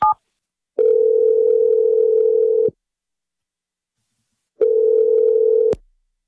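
A telephone call is placed to a number and rings on the line. After a brief higher blip, two long steady ringback tones sound, separated by silence, with no talk.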